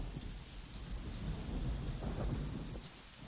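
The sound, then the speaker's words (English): Steady rain falls on mud with a soft, continuous hiss of many small drops. It stays faint and even throughout, with no voices. “Rain washes over the mud.”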